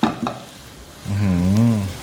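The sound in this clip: Food being stir-fried in a pan for a very hot, fiery stir-fry: a couple of brief knocks, then a louder sustained stretch of sizzling and stirring.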